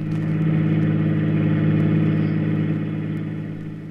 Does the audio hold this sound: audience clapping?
no